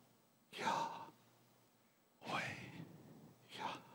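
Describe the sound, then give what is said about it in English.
Soft, breathy inhaling and exhaling, done deliberately as a spiritual demonstration of breath. Three separate airy bursts are heard, the first two longer and the last brief, with quiet pauses between them. “Yahweh, and Yahweh is the inhale and exhale of breath.”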